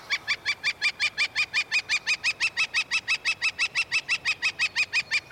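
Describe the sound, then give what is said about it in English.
A northern flicker, a brownish woodpecker larger than a robin and smaller than a crow, calls in a long, rapid, steady series of many loud, even, nasal notes with a bright, clear tone. “That's the sound of a northern flicker, a brownish woodpecker, larger than a robin, smaller than a crow”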